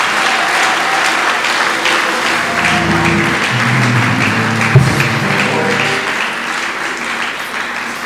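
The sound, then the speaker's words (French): An audience applauding during a church worship service, with dense, steady clapping that holds at an even loudness for the whole stretch and no voices on top. “Acclamez encore le Seigneur.”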